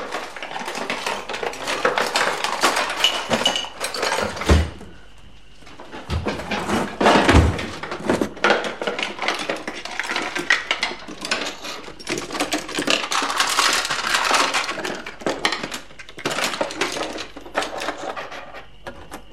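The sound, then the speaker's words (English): Metal utensils clatter and jangle as kitchen drawers are opened and rummaged through, a busy, continuous clinking with a couple of brief lulls and occasional duller knocks. “She opens drawers and rifles through utensils.”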